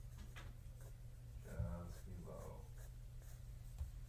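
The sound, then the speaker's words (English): Scratchy strokes of a drawing tool making a mark on paper during an animal drawing lesson: a soft, continuous rasp with a few brief accents, partly under a speaking voice. “Just below your dot, we're going to draw another mark. And then we're going to stretch that across.”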